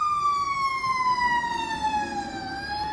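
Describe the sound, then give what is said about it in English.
Siren of a passing emergency vehicle: a loud, sustained tone whose pitch slowly falls throughout, over a low rumble of road traffic. “Sorry for the siren coming by. No, they're not coming for me.”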